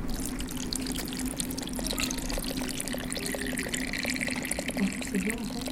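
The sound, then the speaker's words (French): Water is poured over sand held in containers, making a soft, steady trickling and splashing that runs throughout, with light talk alongside. “Vous allez mettre de l'eau au-dessus de vos récipients.”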